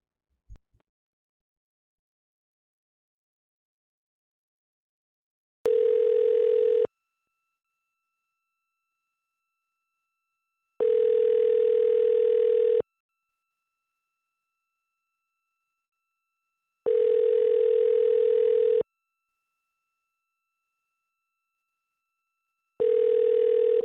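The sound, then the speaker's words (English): A telephone line rings while a number is called back: a steady, low electronic tone comes in evenly spaced bursts of about two seconds, four in all, with long silences between and a faint click at the start. “Should we call that number back one more time? I don't back down. Let's call him back. Call back.”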